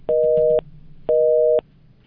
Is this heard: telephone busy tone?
yes

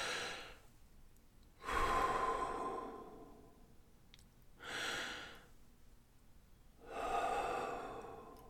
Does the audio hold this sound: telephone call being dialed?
no

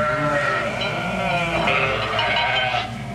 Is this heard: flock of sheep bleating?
yes

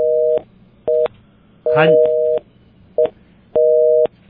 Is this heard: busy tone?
yes

